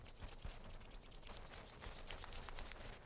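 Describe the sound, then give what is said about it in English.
Palms rubbing briskly together at the chest in a Kundalini yoga warm-up, a quiet, steady run of many fast, even swishing strokes with no voices. “Rub your hands together at the heart.”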